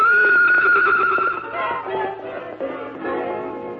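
A wild palomino stallion whinnies loudly in a long, quavering call, its pitch trembling at first, then trailing off into lower, softer pulsing neighs.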